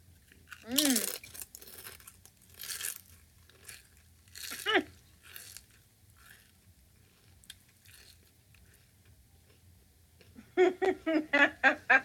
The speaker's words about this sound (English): Okay, now I have Harvest Cheddar Sun Chips. So let me get in too.